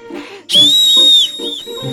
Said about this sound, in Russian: Свист оказался на редкость пронзительным.